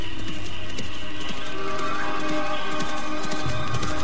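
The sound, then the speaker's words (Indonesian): Hoofbeats of a horse coming toward the listener: a steady run of many soft clops over a broad, noisy rumble, holding an even loudness throughout. “aku mendengar suara derap seekor kuda menuju ke tempatku. Bagus. Aku akan merampas kudanya dan memberikan perhiasanku ini sebagai penggantinya. Kuda itu semakin mendekat.”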